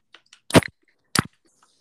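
A can of beer cracks open: a couple of faint ticks, then a sharp bright burst with a short hiss, followed moments later by a second crisp burst.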